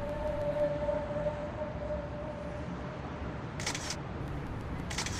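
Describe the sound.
Two crisp camera shutter clicks as a photo is taken, the first a short double burst and the second a brief snap near the end, heard over a steady hiss with a faint sustained tone.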